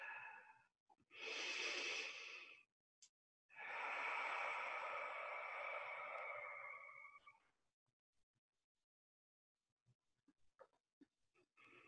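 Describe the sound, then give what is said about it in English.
A slow, deep breath: a soft, airy inhale followed after a brief pause by a longer, fuller exhale. Both are quiet, with a few faint clicks and rustles trailing afterward. “Just allow. Deep breath.”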